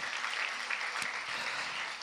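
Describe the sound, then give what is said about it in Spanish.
A church audience applauds as an offering of praise during a service: dense, steady clapping held at an even, fairly faint level throughout, with no talk over it. “Denle una ofrenda de palmas al Rey de Reyes y Señor de Señores.”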